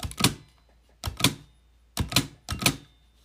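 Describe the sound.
Keys pressed on a braille typewriter: four sharp mechanical clacks, each a quick double thunk, separated by short pauses.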